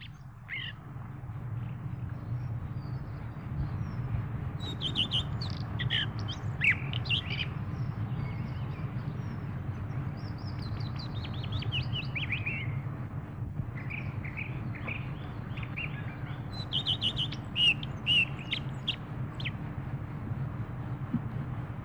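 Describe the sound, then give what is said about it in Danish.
Common redstart song: short, high, warbling phrases come in several bursts with pauses between them, over a steady low background hum. “Rødstjert.”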